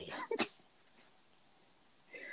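A person briefly clears their throat with two quick rough pushes of breath, followed by near silence.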